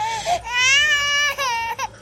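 A baby cries in loud, high, sustained wails, its pitch wavering and breaking into short sobbing gaps before it starts again.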